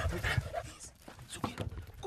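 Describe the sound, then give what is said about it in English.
Panting and sniffing from a sniffer dog trained to find ivory: quick, uneven bursts of breath that come in short clusters at a moderate level. “When it comes to finding ivory quickly, no one can beat Diva the sniffer dog.”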